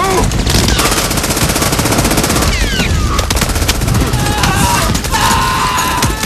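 Rapid German machine gun fire from a bunker in a war film beach battle, loud and continuous, with dense overlapping bursts and sharp cracks running unbroken through the whole stretch.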